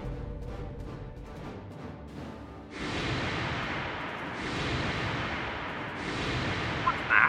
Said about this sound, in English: I'm going to try the photon torpedoes. Right through it.